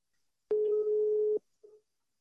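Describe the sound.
A telephone line tone sounds while calling someone: one steady mid-pitched beep lasting just under a second, then a short fainter blip before silence.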